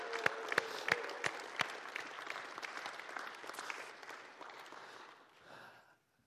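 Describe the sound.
A church audience applauds. A few sharp, distinct claps open into dense clapping that gradually thins and fades to silence near the end.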